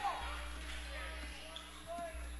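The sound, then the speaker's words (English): A basketball is dribbled across midcourt in the closing seconds of a basketball game, giving a few dull, low bounces spaced unevenly under a steady background murmur. “he'll dribble it across midcourt to finish this one out”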